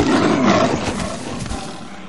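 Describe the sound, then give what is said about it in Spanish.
Roar of a black panther pouncing in the jungle, a loud, rough, breathy burst that is strongest at the start and then slowly fades over about two seconds. “La rama quiebra y Mowgli cae al suelo. Una pantera negra se abalanza sobre él.”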